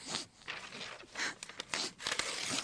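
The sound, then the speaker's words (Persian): Paper bearing a poem is torn up: faint, rasping tearing strokes come in several short, uneven bursts separated by brief pauses. “اگه منو دوست داری این شعر رو پاره کن خواهش میکنم”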